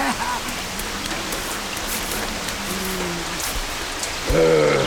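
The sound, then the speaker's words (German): Rain falls as a steady, dense hiss of drops that runs throughout, with faint tonal sounds over it and a louder burst near the end. “Aber es regnet doch.”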